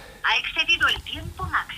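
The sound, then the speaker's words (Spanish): A telephone rings with bright tonal bursts in an uneven pattern, mixed with voices talking throughout. “¿Y esto qué es? Pues sí. Yo creo que es el teléfono, ¿no?”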